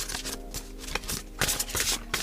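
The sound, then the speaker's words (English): Quiet, papery slides and soft taps as two cards are drawn from the Angelarium Oracle of Emanations deck, with several brief scraping rustles at irregular intervals. “And I'm gonna pull two cards from each. So I'm starting with the Angelarium deck, Oracle of Emanations.”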